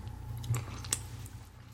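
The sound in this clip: Chewing a Cuban sandwich made with plantain and a soft, cream-cheese-like cheese: faint, moist squishing with a couple of soft clicks, alone without talk.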